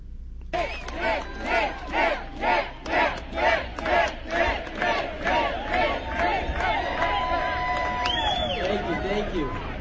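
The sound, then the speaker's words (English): A crowd at a rally against a bill chants in unison, many voices rising and falling in loud, regular rhythmic bursts that continue steadily throughout. “There was a rally against this bill, and Nick Shirley was one of the speakers, number 49.”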